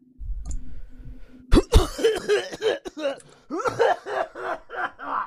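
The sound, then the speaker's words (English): A man's voice imitates a king coughing violently, with two harsh, loud coughs followed by a run of raspy hacking and throat-clearing bursts. “And begins coughing his lungs out so hard that he falls off the throne.”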